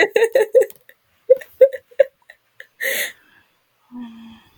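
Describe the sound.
Heavy, rhythmic panting from a group of animals: quick breathy bursts in a rapid run, then a second cluster after a short pause, followed by a longer rasping breath and a softer low tone.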